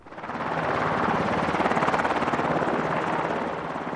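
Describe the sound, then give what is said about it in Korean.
Helicopter rotor roar from a presidential helicopter descending onto a schoolyard under tight security. It is loud and steady with a rapid, rhythmic blade chop, swelling in over the first second and holding throughout. “철통 같은 경호 속에 헬기가 운동장 마당으로 내려앉고 있었습니다.”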